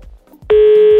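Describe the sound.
A telephone keypad tone while a number is dialed: faint low thumps, then one loud, steady electronic tone that starts abruptly halfway through and holds to the end.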